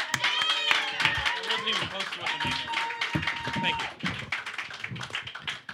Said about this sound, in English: Please put your hands together in welcoming Mr. Alex Falcone.